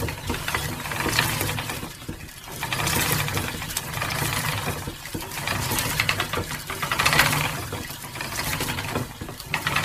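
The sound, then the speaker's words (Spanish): A turning spinning wheel gives off a steady mechanical whir and rattle, with the sound swelling and easing in regular surges about every two seconds. “la rueca está trabajando, está sonando y tiene un sonido que sonaría así.”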